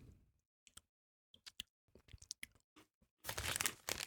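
Crunchy snack being chewed at a close-up tasting, with many sharp, crisp crunches in short irregular bursts and quiet gaps between them, then a louder, denser stretch of crunching at the end.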